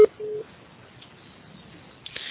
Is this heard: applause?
no